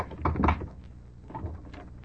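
A door opens with a brief cluster of knocks and creaks near the start, followed by a softer, quieter settling sound.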